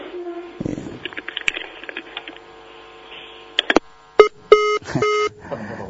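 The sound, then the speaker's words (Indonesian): Telephone line tones as a call disconnects: soft line noise gives way to a few short, bright beeps and tone bursts with a steady low hum between them, fairly quiet overall. “Tapi sambungannya, teleponnya terputus.”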